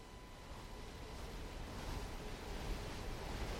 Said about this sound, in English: Outside, a northeasterly wind begins to blow.